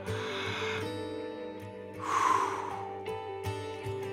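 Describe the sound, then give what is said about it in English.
A deep breath drawn in during a guided breathing exercise comes as one airy inhale of about half a second, moderately loud, over a soft sustained musical pad. “Let's draw another breath.”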